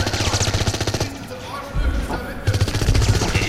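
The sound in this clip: Gunfire erupts in an underground cave among stalactites and stalagmites: rapid, loud, rhythmic bursts of shots in two volleys, separated by a shorter, quieter stretch in the middle.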